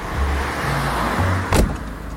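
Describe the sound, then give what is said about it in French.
Road noise inside a moving car on a seaside corniche road at Sète: a steady low hum and rushing sound, with a short louder burst near the end and no talk. “On est en train de rouler le long de la corniche.”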